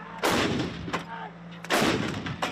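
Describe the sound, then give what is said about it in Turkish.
Panter howitzer artillery fire during a military exercise: two loud, heavy booming blasts, each followed by a long rumbling decay, separated by a quieter stretch. “Ateş Serbest tatbikatında 2025 yılında envantere giren Panter obüsü de başarılı şekilde atış yaptı.”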